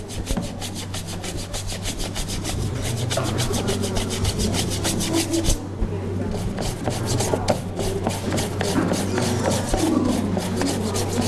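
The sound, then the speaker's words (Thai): Scrubbing of an object that has been soaked in a water mixture, heard as many quick rhythmic rasping strokes with a brief pause midway before the steady rubbing resumes, with no talking. “ผสมกับน้ำจริงๆแล้วเราต้องแช่ไว้สักครู่นึงเหมือนที่คุณครูแช่ไว้เมื่อกี้นะคะลูกแล้วก็ทำการขัดเอาขัดดูก่อนว่าออกไหม”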